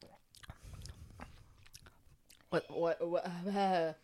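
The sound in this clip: Soft, wet chewing of a Christmas food with a medicinal, herbal smell. Faint, irregular mouth sounds are followed by a voice speaking clearly.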